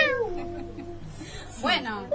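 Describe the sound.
A cat in a primary school class meows twice: a drawn-out call that slides down in pitch, then after a pause a shorter, louder cry.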